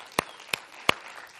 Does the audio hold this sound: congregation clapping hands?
yes